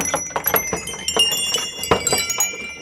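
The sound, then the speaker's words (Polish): Small bells fixed to a horse's collar harness, the kind that rang on winter sleigh rides, jingle continuously in many rapid, irregular strikes with bright ringing tones. “To są takie dzwoneczki, które były czepiane przy Chomoncie do konia. Jak się jechało z sankami zimą, no to słychać, że dzwoni”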